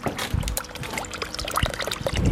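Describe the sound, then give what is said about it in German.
Water splashes and trickles in a natural garden behind a house in St. Wendel, northern Saarland: a steady, fairly loud babble with a few sharper splashes and no talk. “Es plätschert hinterm Haus bei Michael und Gabi Keller in St. Wendel.”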